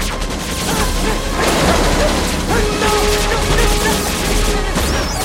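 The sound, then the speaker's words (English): Rapid gunfire from guards pursuing fleeing characters down corridors in an audio drama, a loud, dense clatter of shots mixed with mechanical crashes and rattles that runs without pause. “Dredd and Fergie flee down corridors, pursued by shooting guards.”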